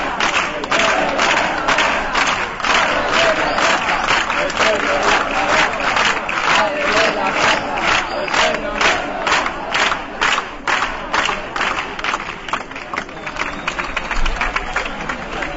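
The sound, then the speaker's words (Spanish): A large crowd cheers and chants for the Mothers of Plaza de Mayo as Bonafini rises from the front row. Loud, sustained shouting is driven by steady rhythmic clapping pulses that run through the whole stretch. “Se levantó Eve Bonafini y ha recibido el apoyo de todo el público presente.”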